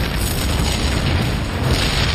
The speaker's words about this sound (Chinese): 爆炸声响彻夜空，紧接着我们又把两个炸药包安在其他 T-34 坦克上。